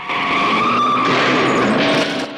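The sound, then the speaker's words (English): Car tires skid and screech as a rammed car swerves violently on the road, a loud continuous grinding squeal with a steady whining tone that holds for the whole stretch. “He rams them again and they swerve violently on the road.”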